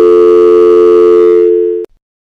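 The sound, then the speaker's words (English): Telephone tone for a number that is not in service: one loud, steady, pure electronic tone. It holds for almost two seconds, fades slightly, then cuts off abruptly into silence. “Sorry, the number you have dialed is not in service at this time.”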